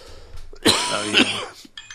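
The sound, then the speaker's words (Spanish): Two harsh coughs in quick succession from someone with a bad cough while recovering from the flu, loud against a quiet background. “Yo estoy con una tos terrible saliendo de una gripe, lamentablemente.”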